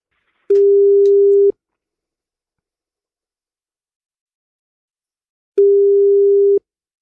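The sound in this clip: Telephone ringback tone while a call is being placed: two steady, low one-second tones about four seconds apart, with silence between them.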